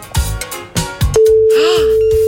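A telephone ringing tone sounds while a radio station calls a listener: a steady, single-pitched tone starts partway through and holds loudly to the end, after a few thumping beats, with a whooshing effect sweeping over it.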